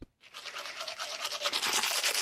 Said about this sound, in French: c'est la brosse à dents, un objet tout simple devenu indispensable à nos vies modernes.